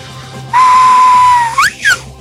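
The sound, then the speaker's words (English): A loud whistle holds one long, steady tone for about a second. A short upward-sliding note and a brief downward one follow, sounding alone over a faint low hum. “Now, you're probably too young, but that's the whistle for Skippy.”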